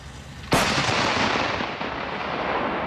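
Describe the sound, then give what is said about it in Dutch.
A Dutch howitzer fires a live artillery round during a live-fire exercise on the Lüneburger Heide in northern Germany: one sudden, very loud blast about half a second in, followed by a long, broad rumbling decay over steady background noise. “De Nederlandse artillerie schiet met scherp op de Lüneburger Heide in Noord-Duitsland. 7 grote howitzers zijn hier bezig”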